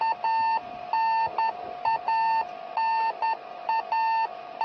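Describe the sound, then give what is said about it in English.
A radio beacon on a Soyuz spacecraft beeps while relaying its position for ground telemetry during descent before landing. Its steady, high electronic tones come in uneven runs of long and short beeps, clear and alone. “The beeping sound you hear is a radio beacon on the Soyuz spacecraft that is relaying its position back for telemetry on the ground.”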